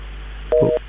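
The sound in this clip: A telephone line tone sounds after a dropped call: one short, steady beep over constant hiss and low hum.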